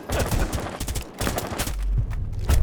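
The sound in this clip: Gunfire in a video game, a series of sharp shots cracking out in irregular bursts, some close together like quick volleys and others spaced apart, loud against a noisy background.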